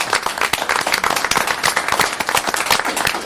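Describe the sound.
Applause welcoming a new fire department hire, with dense, overlapping handclaps at a brisk, even rate throughout.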